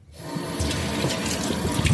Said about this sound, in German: So, die Frühlingszwiebeln wasche ich jetzt erstmal ab.